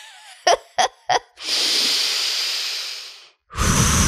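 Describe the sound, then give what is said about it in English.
A collective deep breath from a group: three short, sharp sniffing bursts, then a long, loud, airy breath of nearly two seconds. After a brief silence, a second forceful breath bursts out. “So can we all just take another? I mean, how many collective deep breaths have we taken on this podcast this year?”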